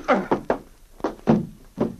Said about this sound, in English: That blow in the back of the head will keep him quiet for a while.